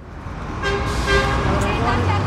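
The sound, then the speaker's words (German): Rush-hour traffic on a busy central square in Addis Ababa, with four lanes of cars running each way: a dense, steady roar of engines with a loud car horn honking over it. “Feierabendverkehr an einem zentralen Platz in Äthiopiens Hauptstadt Addis Abeba. Auf 4 Spuren verteilen sich die Autos hier in jede Richtung. Trotzdem sind die Straßen voll.”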